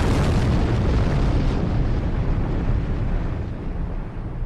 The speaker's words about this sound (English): You got to drop a bomb for my man Bud